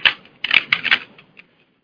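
A few quick keystrokes are typed on a computer keyboard into a web page search box, sharp clicks in a short burst that taper off into silence.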